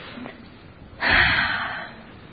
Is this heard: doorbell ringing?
no